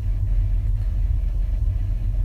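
A car engine idles at a stoplight, giving a steady, loud, low rumble that holds unchanged throughout with no talk over it.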